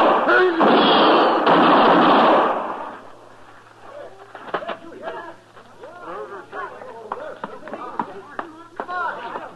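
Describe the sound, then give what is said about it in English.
Gunshots ring out in a radio western drama gunfight: a loud, roaring burst of gunfire, followed by men talking. “You did it, Mr. Dillon. Why, he didn't hardly have his gun out before you hit him the first time.”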